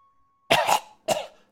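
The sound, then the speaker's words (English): A voice imitates a creature coughing up ash: two rough, throaty coughs, the first longer and doubled, the second a short sharp burst, each loud against an otherwise quiet background. “It coughs up a bunch of ash.”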